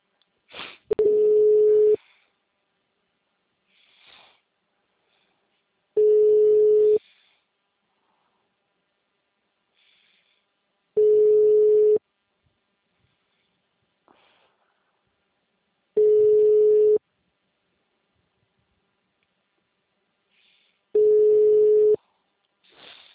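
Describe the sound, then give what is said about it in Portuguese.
Ringback tone of an outgoing phone call: five steady, low-pitched electronic tones, each lasting about a second, evenly spaced with long silent gaps between them. “Tô ligando pra Nancy.”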